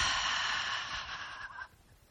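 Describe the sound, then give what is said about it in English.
A deep breath is released through the mouth during a guided breathing exercise: a soft, airy rush that holds for under two seconds and then fades out, heard alone with no talk. “take a deep breath in through your nose and release through your mouth”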